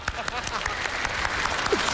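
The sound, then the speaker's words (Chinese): Audience applause during a Chinese crosstalk comedy routine: steady, continuous clapping holds an even level, with a voice speaking over it. “您各位听这什么就鼓掌啊？”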